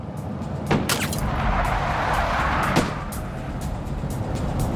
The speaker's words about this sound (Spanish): Obligó al conductor a acelerar.